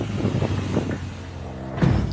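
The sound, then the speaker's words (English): A conventional petrol motorbike's engine drones past on a fast lap, a brief rough mechanical note mixed with gusty wind noise, holding fairly steady with a short louder burst near the end. “Our instructor Frank lays down the gauntlet on a conventional petrol bike. It's not that fast.”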